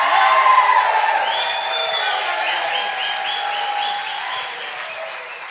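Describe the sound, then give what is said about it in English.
An audience giving a standing ovation to welcome a guest, dense sustained applause with whoops and cheers that eases slightly toward the end. “Can we get to our feet and do a real American-style welcome for Andy?”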